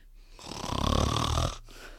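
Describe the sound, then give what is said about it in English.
Extremely loud snoring from someone asleep during a Sunday school class in a church auditorium: one long, rough, rumbling snore that swells and holds for about a second, then cuts off abruptly. “this snoring that is literally the loudest snoring I have heard in my life”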